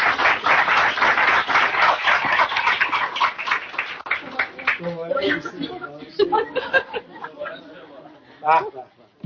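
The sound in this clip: An audience applauds at a community association gathering, with loud, dense clapping for about four seconds. It then thins into chatter, chuckles and a speaking voice.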